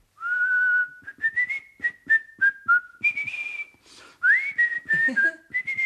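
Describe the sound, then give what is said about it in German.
A man whistles a tune to himself after work: a clear, melodic line of sustained and short notes that shift up and down in pitch, fairly loud and alone, without talk. “Und da hat er nach Feierabend vor sich hingepfiffen.”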